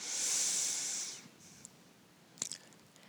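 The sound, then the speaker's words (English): A single inhale during a guided movement exercise: a steady, breathy hiss lasting about a second, then near quiet with a few faint clicks. “Breathe in.”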